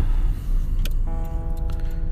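Car driving along Porter Valley road in a recently evacuated hillside area: a steady low engine and road rumble throughout, with a few sharp ticks and a sustained tonal hum joining partway through.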